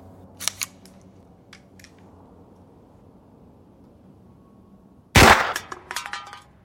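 A single gunshot fired at a tin can gives a loud, sharp crack after near silence, followed by a few clattering, ringing hits that fade quickly; faint clicks come earlier.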